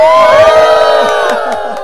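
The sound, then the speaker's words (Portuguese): Schoolchildren at a school shout and cheer together, a loud, sustained mass of high-pitched voices and whoops that eases slightly toward the end. “Que legal, tá todo mundo feliz? Dá um grito aí, pessoal, que é isso?”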